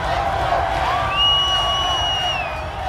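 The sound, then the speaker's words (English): Crowds of Cleveland fans cheer at the Cavaliers' NBA championship parade, a fairly soft wash of many voices with scattered whoops. “Thousands upon thousands upon thousands of happy Clevelanders came out to see the newly minted NBA champion Cavaliers on parade.”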